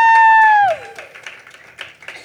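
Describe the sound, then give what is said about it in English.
Scattered applause from an audience welcoming a guest onto a stage at a live show, sparse claps following a loud sustained tone that drops in pitch. “Dionysus to the stage. Oh, give it up for Dionysus, everyone.”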